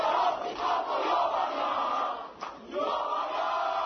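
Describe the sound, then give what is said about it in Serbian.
Crowd ovation for returning Serbian Olympic champions, water polo players and a karate gold medalist, at Nikola Tesla airport, a steady, fairly faint roar of cheering voices with a short dip near the middle. “Na aerodromu Nikola Tesla rodbina, prijatelji, navijači, srpske zastave, cveće, čestitke i ovacije srpskim šampionima, vaterpolistima i posebno zlatnoj karatistkinji Jovani Preković.”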